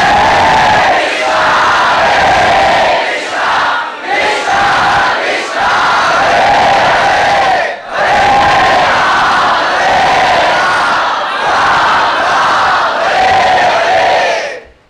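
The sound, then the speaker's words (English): A crowd of devotees loudly and ecstatically chants holy names while dancing. Massed voices ring out in long, forceful phrases broken by brief pauses, staying loud throughout. “Intoxicated by dancing and by blissfully, with tears in the eyes, loudly chanting the holy names.”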